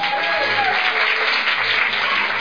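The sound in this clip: Dense, steady applause from an audience honouring cultural workers at a celebration, many hands clapping continuously and loudly without a break.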